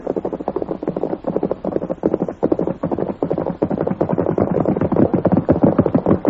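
Horse hoofbeats as a rider arrives on horseback, a fast, steady run of many clip-clops that stays fairly loud throughout, with no voices.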